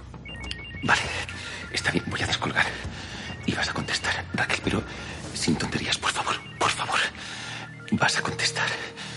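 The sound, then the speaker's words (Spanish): A phone rings in short bursts beneath steady voices talking, its electronic tone partly buried under the speech throughout. “Te, te está llamando Ángel.”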